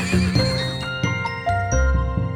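A hungry horse neighs loudly, a shrill, wavering whinny made of several quick bursts spread over about two seconds.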